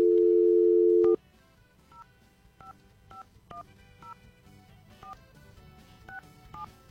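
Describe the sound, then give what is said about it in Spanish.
A telephone number is dialed: a loud, steady dial tone plays for about a second, then cuts off. A series of short, evenly pitched keypad beeps follows at irregular intervals over a low, murmuring background. “Está sonando, ¿ok? A ver, bueno, ya, marqué.”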